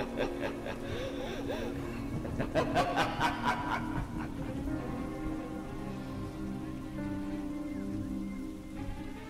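Steady rain falls in an unbroken hiss through the whole clip. A few louder pulses rise out of it partway through.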